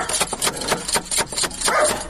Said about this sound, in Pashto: دا څه بد سپی لري